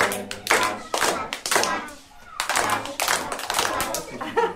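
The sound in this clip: Children clap their hands during a daycare morning circle, in a few bursts of rhythmic claps with children's voices mixed in and a short pause partway through.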